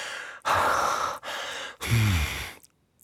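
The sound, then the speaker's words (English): Heavy, ragged breathing of a woman catching her breath after exertion: three long, loud breaths separated by brief pauses, the third carrying a low voiced groan before trailing off into quiet. “Look at the way your chest is heaving as you catch your breath.”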